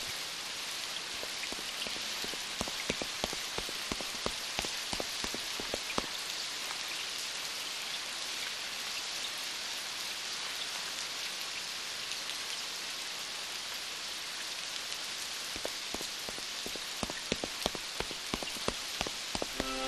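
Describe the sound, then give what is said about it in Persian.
Steady rain falls, a dense, even hiss of drops striking a surface, with scattered sharper drip ticks throughout and no voices. “باشە، ئەگەر دوای من بکەون، ئەتوانن خۆتان لە باران بەدوور بگرن.”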